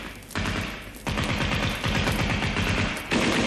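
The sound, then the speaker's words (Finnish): Fire from two automatic cannons with night-sight systems: loud, dense bursts of rapid shots that run almost without a break, with sharp jumps in loudness as new bursts begin. “Vaikkei mistään kätköstä voida puhua, kun käytössä on kaikkein nykyaikaisimmat pimeätähtäin järjestelmät ja kaksi kuolettavan tarkkaa konetykkiä.”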